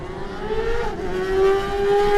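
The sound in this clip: A racing Honda motorcycle pulls away from the start line of a road race with a loud, steady engine drone. Its tone is strongly harmonic, and the pitch shifts slightly upward partway through.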